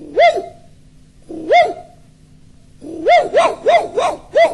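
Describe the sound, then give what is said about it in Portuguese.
Small dog barking in short, high, yapping barks: two separate barks, then a quick run of five, all fairly loud against a quiet background. “E o cachorrinho chegou, latiu, latiu.”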